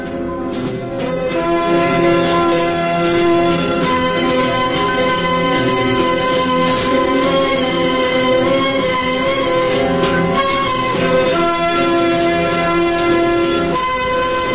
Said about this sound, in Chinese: 冬天的大雪越来越大，列车在雪地上飞驶而去